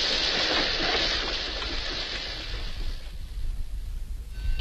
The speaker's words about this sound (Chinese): 门外远远地开过来一辆机车